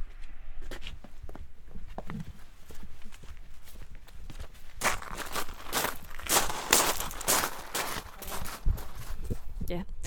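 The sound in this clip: Footsteps walk across toward a field, a steady series of crunching steps that grow louder and more distinct in the second half.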